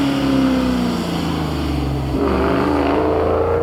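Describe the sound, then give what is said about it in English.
Race-car engine of a 1969 Ford Mustang Fastback: a loud, steady roar whose pitch slowly drops, then jumps up partway through and climbs gradually to the end. “See car 305 in the 69 Mustang Fastback has taken a double bite at that breaking cherry”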